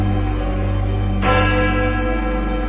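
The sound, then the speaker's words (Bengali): A black wooden clock strikes midnight with a deep, sustained bell-like tone that rings on steadily and is renewed by a fresh strike partway through. “কালো কাঠের ঘড়িতে রাত 12টার রহস্য ঘণ্টা বেজে উঠল”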